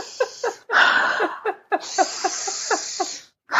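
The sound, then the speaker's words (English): Someone imitates a child breathing hard in and out through the nose, with long, airy hissing breaths broken by short rhythmic puffs. “he'd be trying extra hard to like breathe in and out through his nose. He closes his mouth. He's like,”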